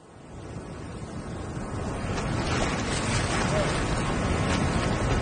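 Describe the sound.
Ocean surf roars as a wave approaches a surfer, a broad rushing wash that builds steadily louder over about five seconds, with wind noise mixed in.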